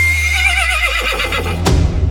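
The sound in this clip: A horse gives one loud, high, quavering whinny whose shaky pitch wobbles and trails off, then a sudden sharp percussive hit.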